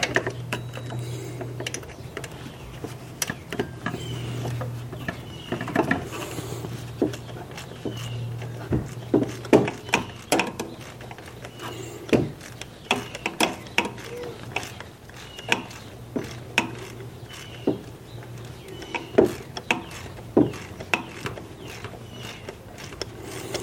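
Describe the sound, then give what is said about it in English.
Ratchet tightening a bolt inside a car engine: many sharp, irregular clicks in short bursts over a steady low hum. “Okay, the bolt is nearly in now. A little ways longer.”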